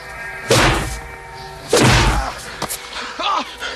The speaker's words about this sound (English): The long-haired man and Danko fight, still dressed only in towels. A third man attacks. Danko returns the blows.